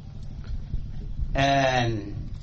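A single loud bleat from livestock held at a quarantine station in Jubbaland. The wavering cry rises out of a low, rumbling background and fades after about half a second.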